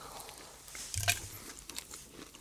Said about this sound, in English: Right, I'm going to have my first ever Waitrose mince pie.